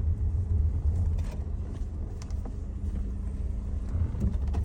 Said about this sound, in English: drive this motor fast